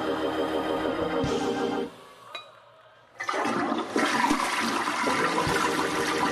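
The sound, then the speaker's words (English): A toilet flushing with loud, rushing, gurgling water. The flow drops to a quieter trickle partway through, then surges back strongly and keeps going to the end. “Somebody holler, flush it.”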